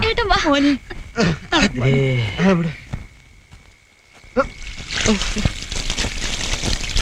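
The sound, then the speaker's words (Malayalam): Buckets of water are poured over a person's head, a broad splashing rush that sets in after a stretch of talking and carries on to the end. “മോള് 2 തൊട്ടി വെള്ളം കോരി തലയിൽ ഒഴിച്ചു കൊടുക്ക്”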